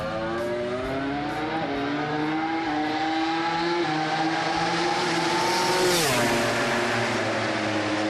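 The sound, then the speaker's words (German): Roaring engine of a modified two-seat KTM MotoGP racing motorcycle with over 300 horsepower at full throttle on the Red Bull Ring. A loud, steady, high-revving drone climbs gradually in pitch, dips sharply once, then keeps pulling. “Er ist mit einer umgebauten KTM MotoGP-Rennmaschine bei Jonas Folger mitgefahren. Ja, Doppelsitzermaschine, über 300 PS und das mit Vollgas am Red Bull Ring.”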